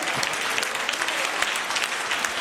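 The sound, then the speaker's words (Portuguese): A church audience clapping their hands in praise, a dense, continuous patter of many claps at an even, fairly loud level. “Pode louvar a Deus com as palmas.”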